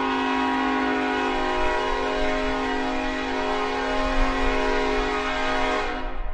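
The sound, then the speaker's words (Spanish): A train from Madrid pulling into a station sounds a long, steady horn or whistle note: a rich, unwavering tone held for over six seconds above a low rumble. “Tren procedente de Madrid acaba de hacer su entrada en la estación.”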